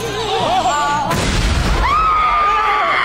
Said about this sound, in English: Wait! Stop! There's a bomb in the cake.